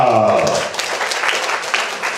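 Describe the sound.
Audience applause welcoming a young singer-songwriter onto a stage, a dense steady patter that takes over right after a voice finishes speaking and carries on evenly to the end.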